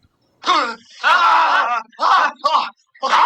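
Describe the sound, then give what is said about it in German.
Screams from a German radio play: a voice lets out several loud, drawn-out, high-pitched cries and wails in separate bursts, with brief gaps between them. “Und dann hört man auch den Schrei und die anderen so aufwachen. Wie schlecht ist dieser Schrei?”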